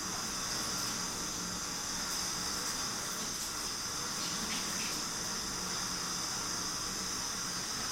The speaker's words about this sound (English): Right now I'm washing the sides off right now.